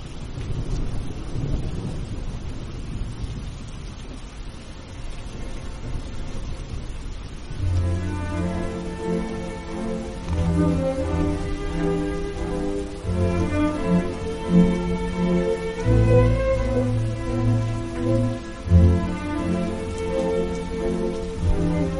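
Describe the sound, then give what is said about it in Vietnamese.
Heavy rain pours with low rumbling thunder outside an old temple on a dark night, a steady wash of noise that continues beneath music entering partway through and playing to the end. “Sấm vọng kèm theo cơn mưa lớn trút ở bên ngoài trong màn đêm tăm tối,”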